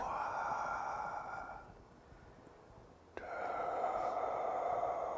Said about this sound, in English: relax, naturally allow the inhalation to come, and you sustain the count